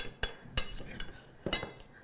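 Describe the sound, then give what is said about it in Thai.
A utensil clinks and scrapes against a dish as fried rice is mixed until the salt dissolves, giving several faint, irregular metallic taps over a soft stirring rustle. “เราจะคลุกเขาจนกระทั่งเรามั่นใจว่าตัวน้ำตัวเกลือค่ะเขาเริ่มละลายแล้วนะเข้ากันแล้วนะคะ”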